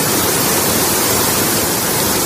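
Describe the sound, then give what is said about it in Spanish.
Floodwater cascading down the stairs of a Seoul metro station during torrential rain severe enough to close the station: a loud, steady roaring rush of water with no breaks. “Así caía el agua en cascada por las escaleras del metro de Seúl, que ha tenido que ser cerrado.”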